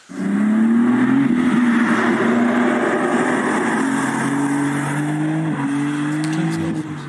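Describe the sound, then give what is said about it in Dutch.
Inline six engine of a tuned, limited-run BMW M4 with a manual gearbox, revving in a loud, continuous drone whose pitch climbs gradually, dips briefly late on, then settles, with no voices over it. “Ja, het klinkt wel goed, hè? Ja, dus 6 in lijn. Niet naar kijken, alleen maar luisteren.”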